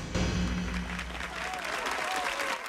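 Applause from an onlooker as dancers finish their routine aboard a plane that has skidded to a halt on one wheel. Steady, moderately loud clapping runs the whole time over a low, continuous hum.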